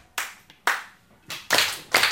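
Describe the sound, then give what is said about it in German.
A primary school class claps together in rhythm as an attention ritual, five sharp loud bursts of group clapping in an uneven pattern: two spaced claps, then three quicker ones closer together, with no talk. “Gemeinsames rhythmisches Klatschen. Ein Ritual, um für Aufmerksamkeit zu sorgen.”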